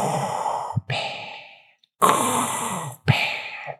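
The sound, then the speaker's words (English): Mechanical breathing through a mask, a harsh, hissing respirator sound. A few loud breaths in and out follow one another, with short silent gaps between them. “And we close the season on his mechanical breathing.”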